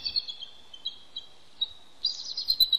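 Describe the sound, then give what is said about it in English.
A mother eagle titters at her nest during an egg switch: a run of thin, high-pitched chirps and twitters, sparse at first, then a denser, brighter burst of calls toward the end, with no talk. “What you're hearing is a mother eagle tittering in concern at an egg switch.”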